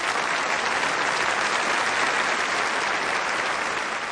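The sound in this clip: Loud, sustained audience applause at a gathering closing with a blessing: a thick, continuous wash of clapping that holds at an even level for about four seconds.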